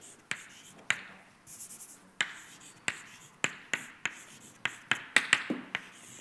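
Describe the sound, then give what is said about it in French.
Writing on a board while an equation is worked out: many sharp, crisp taps and short scratchy strokes in an uneven rhythm. They are fairly faint, with no talk. “Donc j'écris df sur dt.”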